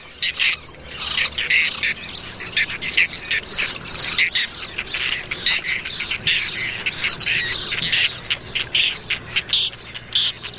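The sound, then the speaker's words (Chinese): Bird chicks squawk for food in a huge breeding colony in Doñana National Park. Harsh, high-pitched calls overlap in a loud, dense, unbroken chorus. “雏鸟们毫不退缩地争夺着每一块食物。”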